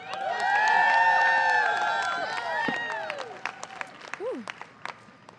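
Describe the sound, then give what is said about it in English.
An audience claps and cheers as a speaker is introduced: loud, dense applause with shouts and whoops. It thins toward the end into scattered claps and a few lone calls. “Please make some noise for Allison Turcos.”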